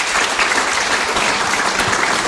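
Audience applause welcoming a drummer back to the stage: dense, loud clapping that holds steady the whole time, with no voices over it.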